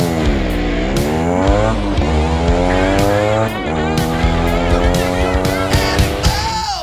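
Harley-Davidson motorcycle engine running loud and steady, its deep note climbing and dropping as the revs rise and fall throughout.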